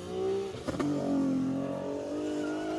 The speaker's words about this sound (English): No, that's the Miata, and then there goes the BMW.